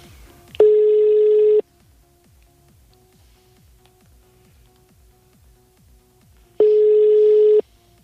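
A telephone ringback tone plays while a call is placed: two steady, one-second tone bursts about six seconds apart, with faint ticking in the quiet gaps between them.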